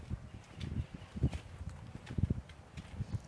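Footsteps of someone walking, a steady series of soft, low thuds at an even pace with no talking.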